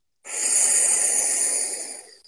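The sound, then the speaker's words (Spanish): A person exhales through the mouth during a guided breathing exercise. A single long, breathy rush of air starts abruptly, holds steady, then tapers off over about two seconds, alone and without talk. “manteniendo la postura en forma de cañón, vas a exhalar por tu boca.”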